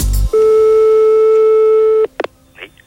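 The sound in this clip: Telephone tone after a call is hung up: one steady, loud mid-pitched tone holding for under two seconds, followed by a couple of brief clicks and a faint rustle.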